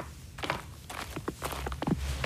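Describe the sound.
Faint footsteps of people walking toward a shed, with a few soft, irregular steps and light thuds over a low background hum and no talking.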